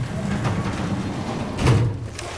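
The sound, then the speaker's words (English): A metal cadaver drawer slides open in a morgue autopsy room: a steady scraping, rumbling texture runs throughout, with a louder surge near the end. “Entering the autopsy room, she turns on the light and opens the cadaver drawer.”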